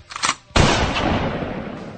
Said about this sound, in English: do we really believe that Kurt Cobain took that sawed-off Winchester shotgun, fully loaded, put it under his chin, and fired?